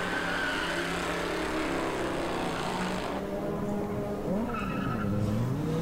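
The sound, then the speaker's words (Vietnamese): Tires squeal as a Sonata sedan skids before crashing into a Hummer: a loud, continuous screech over a roaring engine, its pitch wavering and sweeping toward the end. “Khi Triệu Vĩnh lái chiếc Hummer lao tới đầu ngõ, thì chiếc Sonata của Lâm Hải vừa vặn đâm đúng vào đầu xe Hummer, và chiếc Sonata điên cuồng rốt cuộc cũng phải dừng lại.”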